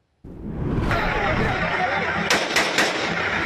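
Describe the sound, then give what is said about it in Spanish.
Assault rifle shots fired into the air by a man confronting protesting teachers in Oaxaca, Mexico: a few sharp, loud cracks burst out over a constant roaring wash of noise. “Este es el momento en el que un sujeto con un rifle de asalto hace detonaciones al aire en contra de los maestros de la Coordinadora Nacional de Trabajadores de la Educación en el estado de Oaxaca”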